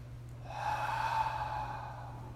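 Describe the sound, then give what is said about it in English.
One long, deep breath during a guided meditation, a soft airy rush that swells and then eases off over a couple of seconds with no talking. “we take three deep breaths in through the nose, filling the body completely, out through the mouth.”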